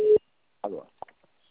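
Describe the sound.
A single short, steady telephone busy-tone beep sounds right after a dropped call, then a voice begins speaking and a few soft clicks follow.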